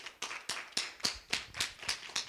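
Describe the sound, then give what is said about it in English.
Hand clapping by worshippers at a church service, offered as praise to God. The claps are faint and evenly spaced, with a steady rhythm of sharp strikes. “Let's give God a hand clap praise.”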